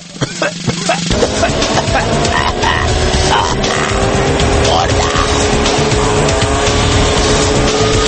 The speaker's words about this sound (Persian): الان یه ماشینی که از فرط داغونی به جای دود گاز خردل تولید میکرد از اینجا رد شد